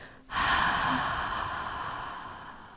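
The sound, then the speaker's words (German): A long, steady airy breath from a calming exercise of breathing in through the nose and out through the mouth. It starts abruptly, then fades slowly over nearly three seconds, heard alone with no talking. “Probier das gleich mal direkt aus. Atme durch die Nase ein und durch den Mund aus.”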